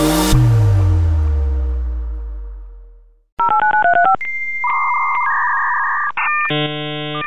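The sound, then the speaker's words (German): A mid-1990s dial-up modem connects to the internet. A quick run of touch-tone dialing beeps gives way to steady, shifting electronic tones and harsh handshake screeches, all loud, after a fading low tone at the start. “Das ist das Geräusch eines Modems, mit dem man 1995 ins Internet gehen konnte.”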